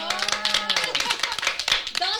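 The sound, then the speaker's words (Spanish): Audience applause: a burst of dense, irregular hand claps mixed with voices and shouts, fairly loud and steady across the whole stretch. “Aplausos, por favor.”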